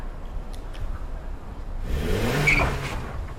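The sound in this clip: A car engine revs angrily, its low rumbling growl swelling louder in the second half as the driver threatens to drive at someone. No voices are heard.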